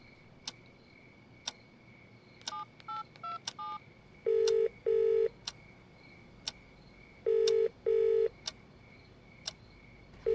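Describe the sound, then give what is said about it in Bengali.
Telephone keypad dialing for a call: a quick run of short tone beeps, then two pairs of steady ringback tones, with faint ticks spread through a quiet background. “আমি ওকে phone করে নেবো একটু পরে”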